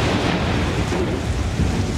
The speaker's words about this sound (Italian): annunciato quasi profeticamente da un furioso temporale, nasce Nikola Tesla